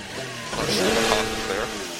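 A car engine hums alone on the road as the driver goes in and turns onto the wrong road. The motor swells louder through the middle, then eases off toward the end.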